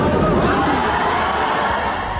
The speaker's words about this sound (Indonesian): Gemuruh sorakan penonton mewarnai pertarungan dua petinju profesional ini.